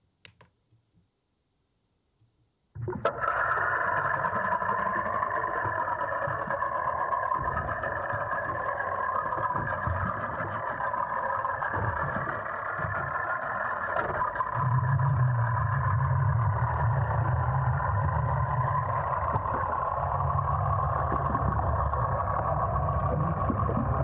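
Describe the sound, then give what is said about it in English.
A motorboat engine drones in Sandy Hook Bay on the Jersey Shore. After a few faint clicks and near silence, a steady banded hum starts abruptly and runs unbroken, with a deeper rumble joining partway through. “But this is what the sound of a motorboat in Sandhook Bay typically sounds like.”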